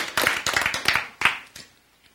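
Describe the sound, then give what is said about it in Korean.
An audience clapping in a short burst of many sharp, rapid hand claps that thin out and fade to silence within about two seconds. “박수.”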